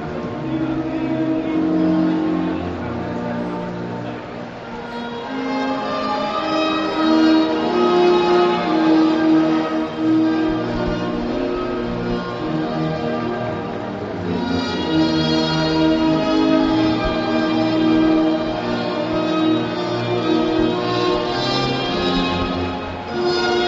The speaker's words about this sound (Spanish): Suena el himno de Islandia.